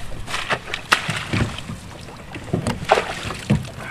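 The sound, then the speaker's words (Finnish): A rowboat is rowed on Ahtialanjärvi lake in Lempäälä, with irregular oar strokes giving sharp knocks and splashy water sounds at intervals over a low background. “No niin, minä soudan tällä kertaa.”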